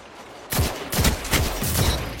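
Video game gunfire in Destiny 2: after a quiet half second, loud shots break out in several sharp, rapid pulses, with a dense, crackling wash between bursts.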